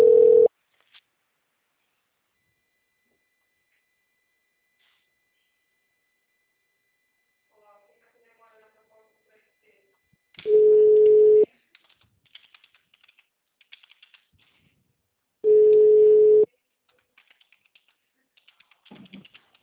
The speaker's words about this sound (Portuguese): Estou fazendo uma ligação